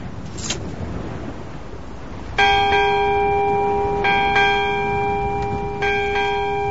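A ship's bell rung on the quarterdeck of a sailing ship, a few bright metallic strikes whose tones ring on and overlap above a steady low rumble.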